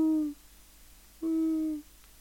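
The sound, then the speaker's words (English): A voice imitates pigeons cooing in a tree with two smooth, low hooting coos, each lasting about half a second and separated by a short pause. “I hear the pigeons in the tree fucking over there somewhere going,”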